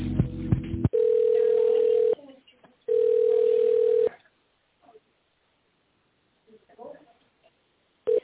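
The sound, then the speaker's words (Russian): Telephone ringback tone while a caller waits to be connected to an operator: after a short burst of other sound, two long, steady, low beeps of about a second each, separated by a short gap, then the start of a third at the end. “Для соединения с оператором оставайтесь на линии.”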